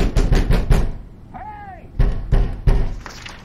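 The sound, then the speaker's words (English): Someone trying a closed door, with heavy rattling thumps and knocks in a few bursts. A short, high creak sounds in the middle. “The door behind them closes. Mac tries the door.”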